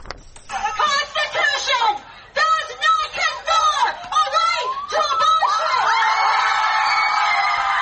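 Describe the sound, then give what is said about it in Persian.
Protesters outside the US Supreme Court shout and chant after Roe v. Wade was overturned; bursts of loud unison voices and whoops break into sustained cheering and shrill cries at the end. “این صدای معترضانی است که از روز گذشته و پس از لغو قانون تاریخی سقط جنین موسوم به روبی وید در برابر دیوان عالی آمریکا تجمع کردند.”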